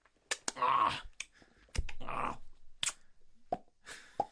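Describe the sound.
Wet smacking and sucking sounds from someone eating food with their hands and sucking their fingers, with soft mouth noises and short moist pops near the end.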